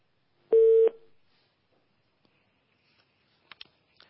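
An incoming telephone call connects with one short, steady electronic beep, followed by near silence with a few faint clicks.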